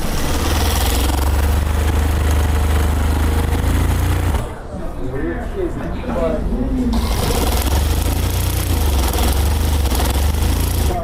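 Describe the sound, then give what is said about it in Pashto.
Sewing machines whir steadily as tailors stitch rolled pakol wool hats at their machines in a shop that also sews chapan coats. The loud mechanical drone runs continuously, dipping briefly midway while a voice talks. “هر یو په خپل ماشین او کار سر ټیټ کړي او مخې ته پراته تاو شوي پکولونه ګنډي.”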